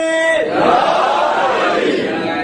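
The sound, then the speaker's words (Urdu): A crowd shouts back in response to the Naara-e-Haidari slogan. A single voice ends briefly before a loud, massed roar of many voices swells and holds. “ابھی تو آپ نے نعرہ لگایا ہے, نعرہ حیدری کا جواب دیا نا آپ نے, ٹھیک ہے. ایک اور نعرہ لگاتے ہیں, نعرہ حیدری.”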